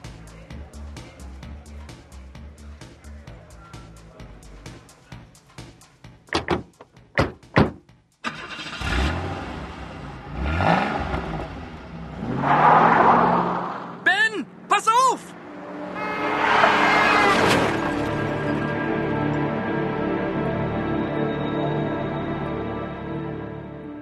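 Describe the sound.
A car engine starts and revs as the car drives off and accelerates, the engine note rising and falling in bursts over a steady rumble.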